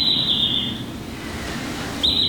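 Whistled call of a common redshank, played back in a museum exhibit: a high, steady whistle that breaks off, then returns near the end, over a low background hum.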